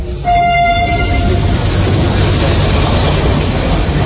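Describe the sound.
A train at Bologna railway station, heard as a loud, steady rumble throughout, with a brief high tonal note like a horn or squeal near the start.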